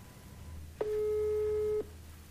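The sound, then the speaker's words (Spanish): A telephone line tone sounds while a call is being placed: a single steady mid-pitched tone lasting about a second, clear above a low constant hum, with no talk. “Ahí lo estamos llamando. Lo voy a llamar yo también por acá.”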